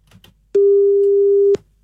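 A telephone ringback tone sounds on a call being placed: one steady, mid-pitched tone lasting about a second, clear and loud, with faint soft noises just before it.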